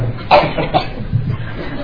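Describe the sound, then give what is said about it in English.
Communal coughing before a group chant: a few short, rough coughs burst out one after another at moderate loudness over a low murmur of the gathered people. “Remember, communal coughing.”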